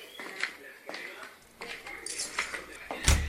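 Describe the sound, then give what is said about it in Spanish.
Keys jangle with light metallic clinks as a door is unlocked and opened, ending in a louder thud. “¡Espere, que ya le abro!”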